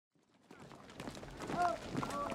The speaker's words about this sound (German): Hören Sie das? Das sind britische Soldaten. 50.000 Mann. Sie ziehen gerade in Köln ein.